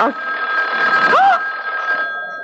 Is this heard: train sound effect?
no